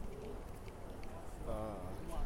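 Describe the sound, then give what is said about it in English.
Street background noise during a walk outdoors: a steady, faint wash of ambient sound with a brief voice-like tone rising from it near the end. “sorry for the background noise, I'm just taking a walk down the street.”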